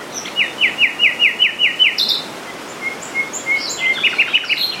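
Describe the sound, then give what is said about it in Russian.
Common nightingale song: a rapid run of identical high, clipped notes, followed by separate clear whistles and short twittering phrases. “Еще я видел и слышал многожды южного соловья.”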